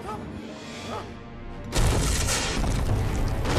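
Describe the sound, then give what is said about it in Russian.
A hut's front door is smashed off its hinges. A sudden loud crash bursts in over background music and leaves a dense, roaring wash of noise that lasts to the end. “Дверь срывается с петель.”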